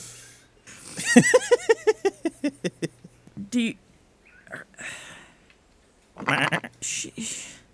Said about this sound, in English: It's a sheep. What the fuck is a sheep doing up here?